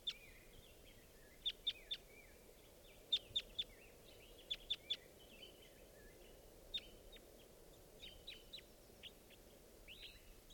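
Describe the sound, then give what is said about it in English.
Wild birds call in short, high chirps, mostly in quick clusters of three that repeat several times, followed by scattered fainter calls over a soft, steady background hiss. “Joined by some others. There's three birds here now.”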